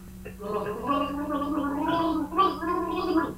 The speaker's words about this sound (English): Christmas songs. Got to gargle a Christmas song. We've got to guess what it is.